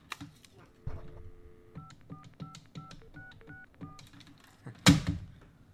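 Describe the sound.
Touch-tone telephone dialing as a radio show host calls a listener: a quick series of short, clean beeps in steady succession, with a voice before and a sharp loud burst near the end.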